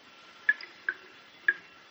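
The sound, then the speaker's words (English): Dirty water drips from a prison cell ceiling. Three sharp, bright drips fall at uneven intervals over a faint, steady hiss. “The only sound is that of dirty water dripping from the ceilings.”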